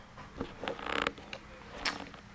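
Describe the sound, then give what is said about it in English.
A Gewehr rifle action built on the K98 base is opened and closed to load five rounds, giving a few faint metallic clicks and a short creaking, grinding slide, with no talk. “the Gewehr platform, again, same base as a K98, that's what I have. You open it up, you have your 5 bullets, it takes seconds. Close it up, there you go.”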